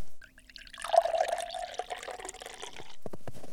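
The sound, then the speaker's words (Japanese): Hot water being poured and mixed into flour for pizza dough, a faint splashing, trickling liquid sound with no voices. “さてと、小麦粉 300g とお湯 200cc を混ぜて。”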